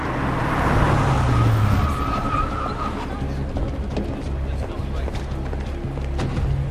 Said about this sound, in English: He clocks a black car arriving at speed across the road from the station entrance.